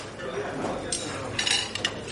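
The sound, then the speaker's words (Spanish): Plate being picked up and passed with salad at a shared meal gives a few light, bright clinks of crockery and cutlery, closely grouped near the end, under faint voices. “Le coge el plato. Le pasa su ensalada.”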